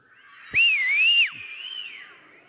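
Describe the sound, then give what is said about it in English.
An audience whistles together: one loud, clear whistle wavers in pitch for under a second and then drops away, followed by fainter overlapping whistles that trail on to the end. “On the count of three, let's do our best job of whistling.”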